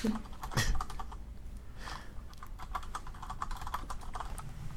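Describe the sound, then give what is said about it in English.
Typing on a computer keyboard to search online makes many rapid keystrokes in a steady clatter, with a few louder taps near the start and no talk. “Googling it just to be sure.”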